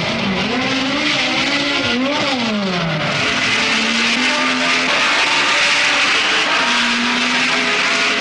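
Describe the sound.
Racing cars roar off the start of a Grand Prix race at Brands Hatch, engines revving together in a loud, dense snarl. The pitch climbs and drops sharply in the first few seconds, then settles into a steady droning howl.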